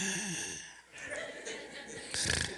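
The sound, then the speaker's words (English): A person imitates a cute snore with short, soft nasal snorts after a brief bit of vocalizing, ending in a louder breathy snort. “she doesn't have a big snore. She has a cute snore. It's like,”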